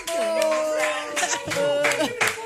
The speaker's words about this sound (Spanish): ¡Aplausos para Michael!